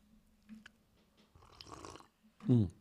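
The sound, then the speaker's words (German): A person takes a sip of coffee, a soft, brief slurping draw lasting under a second, followed by a short voiced sound. “ich trinke einen Schluck Kaffee”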